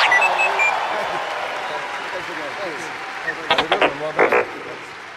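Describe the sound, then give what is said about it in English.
Audience applause for a droid robot on stage: a broad, steady wash of clapping that slowly thins out, with a few short, bright electronic chirps near the end. “Let's hear it again for R2-D2.”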